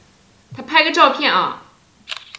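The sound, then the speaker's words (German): A camera shutter clicks once, briefly and sharply, right after a short spoken phrase. “Ich mache mal ein Foto.”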